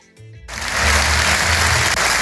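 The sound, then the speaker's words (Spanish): A loud ovation of sustained crowd applause at a manifesto presentation event in Madrid, bursting in after a brief moment and then continuing as a dense, even roar of clapping. “Con esta sonora ovación fue recibido el exfiscal Álvaro García Ortiz en el Ateneo de Madrid”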